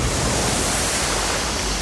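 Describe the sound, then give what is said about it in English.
Water pouring in to fill a dome makes a loud, steady rushing roar, an unbroken wash of noise with no pauses. “The dome is filling up with H2O. Ooh, I feel like we're in an aquarium.”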